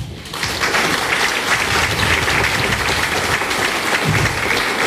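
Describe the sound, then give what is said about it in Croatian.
Audience applause at a school ceremony, sending off a student after her final performance at the end of primary school: loud, dense, steady clapping that holds evenly for the whole stretch, with no talking. “U neku novu, lijepu i poticajnu budućnost ispratite ju pljeskom.”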